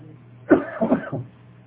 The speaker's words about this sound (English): Forgive me, I'm still hacking away here, coughing and coughing.